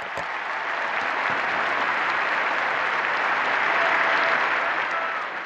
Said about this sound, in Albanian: turma poshtë dritares së papës u përgjigj me një duartrokitje të stuhishme.